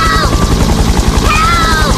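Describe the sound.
Helicopter rotor chopping in a rapid, steady low thump for about two seconds, with a thin whining tone wavering above it.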